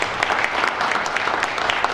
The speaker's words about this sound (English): Ladies and gentlemen, thank you very much indeed for your very warm round of applause.